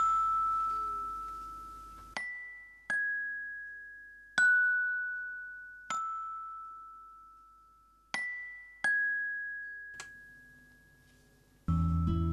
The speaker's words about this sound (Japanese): でこのグロッケンが、まあ、どういうラインかっていうとですね、こんなことになってるわけですね